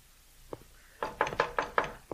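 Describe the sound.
Knocking on a house door by a visitor: a single faint tap, then a quick run of about five firm knocks and one last knock, all fairly soft.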